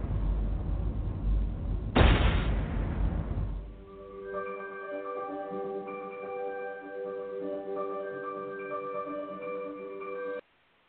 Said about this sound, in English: Okay, that was a trailer for Blade, which was a pretty good movie.